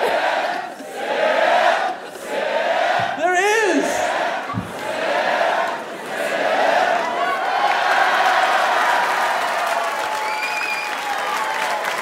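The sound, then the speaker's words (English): A supportive crowd chants and applauds, a dense, sustained roar of clapping with shouting and whooping voices that dips briefly partway through and then swells again. “this is the most supportive crowd. They'll chant even in moderation.”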